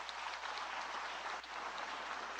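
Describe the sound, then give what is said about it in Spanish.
An audience applauding in church, a faint, even wash of clapping that holds steady for the whole stretch without swelling or stopping. “Regalemos un aplauso a estos hermanos”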